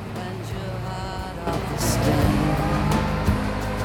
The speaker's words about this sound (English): Now Alex is sitting on a bus, following another snow-covered road that winds its way through sparse woodland.